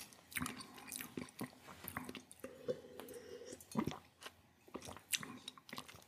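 Wine being sipped and swished during a tasting, heard as faint, wet mouth sounds: a scattered series of soft slurps and smacks, with a brief low murmured hum midway.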